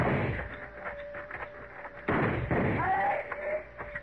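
Gunfire in a shootout from a radio western drama: a few sharp, booming shots with crackling tails, separated by quieter stretches.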